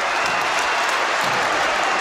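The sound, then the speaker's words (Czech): Applause from a football stadium crowd after a red card is shown, in the arena in Malšovice. It is a loud, dense, steady wash of clapping that holds at an even level for about two seconds. “Ve Finep aréně, jak se nově tedy jmenuje tento fotbalový stánek, se tleskalo, protože Jevhení Skiba nakonec vidí červenou kartu”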